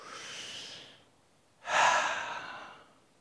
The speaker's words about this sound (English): Everybody, just take a breath with me.